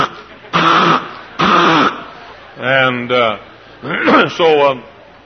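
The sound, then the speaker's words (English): A person vocally imitates a nervous Chihuahua's snorting and croup: two harsh, breathy snorts, then shorter honking, voiced bursts in pairs, loud and abrupt with short pauses between them. “The Chihuahua was always snorting, but he was worse than I. He had to croup all the time. Every time he'd get nervous, he'd go,”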